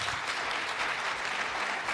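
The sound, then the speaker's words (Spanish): Applause fills the whole two seconds, a dense, steady wash of many hands clapping at an even loudness, with no voices breaking through. “Eso es aplauso.”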